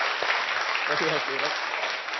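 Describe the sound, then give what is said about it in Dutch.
Audience applause, a steady wash of clapping from a crowd, with a voice speaking briefly over it midway before the clapping carries on alone. “Even een groot applaus.”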